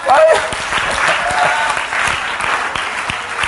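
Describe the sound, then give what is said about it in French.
An audience claps in praise of God during a French-language sermon, the applause dense and steady throughout with voices mixed into it. “Acclamez le Dieu Tout-Puissant.”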